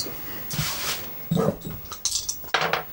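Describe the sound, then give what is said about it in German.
Dice clatter and rattle for a prize draw at a tabletop role-playing game, with a few bright, clinking bursts of hard pieces knocking together and no voices. “dann lasst die Würfel klappern”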